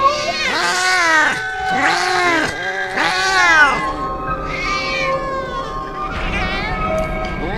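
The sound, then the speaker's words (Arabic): Several cats meowing in a run of loud, drawn-out, wavering calls. The first few meows are strongest, and later, fainter meows overlap one another in a wailing chorus. “لكن دي مش قطة، ده في صوت قطط تانية وتالتة ورابعة.”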